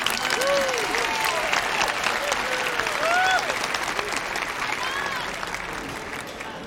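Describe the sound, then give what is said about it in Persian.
Standing audience applauding at a community tribute, dense steady clapping with whoops and voices rising over it, easing slightly toward the end. “لطفاً بایستید. همگی به افتخار ستون و مایه استحکام این جامعه عالی دست بزنید.”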